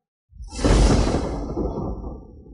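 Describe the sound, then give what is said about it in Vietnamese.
A sword swooshing as it sweeps sideways in a fight: one broad, loud whoosh that swells quickly, then trails off slowly into a long rushing tail. “Con người của Hàn Lập co rụt lại, xông tới trước một bước, trường kiếm trong tay quét ngang về hướng Ác Thi.”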